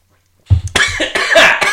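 Coughing after a drink went down the wrong pipe: silence breaks into a sudden, loud, harsh cough followed by a few more rough, spluttering coughs in quick succession.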